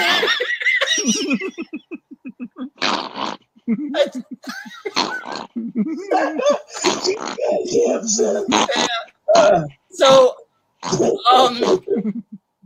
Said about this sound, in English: do you want to stop snorting in the fucking camera?